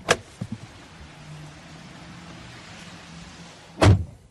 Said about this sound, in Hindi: वो कार से निकलते हैं।